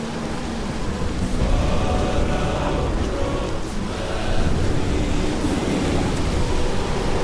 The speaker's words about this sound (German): Das ist nur der Sturm.